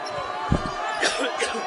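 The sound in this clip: A basketball bounce pass on a gym court during a high school game gives a low thump or two beneath an excited commentator talking throughout.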